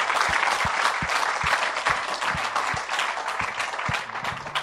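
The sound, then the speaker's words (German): A church audience claps in praise of Jesus, with steady, dense applause throughout and a regular low thump sounding beneath the clapping. “Give Jesus praise. Preise mal Jesus. Klatsch mal für ihn.”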